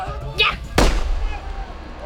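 A single loud pistol gunshot cracks sharply and then decays in a short tail, just after a brief vocal sound.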